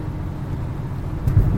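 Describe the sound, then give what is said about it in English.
Steady low rumble of a car driving back from an airport, a continuous road and engine hum with a brief bump near the end and no voices. “I'm driving back from SeaTac Airport.”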